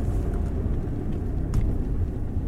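A car's engine and road noise make a steady low rumble as it drives up to a park, an even drone with no distinct events.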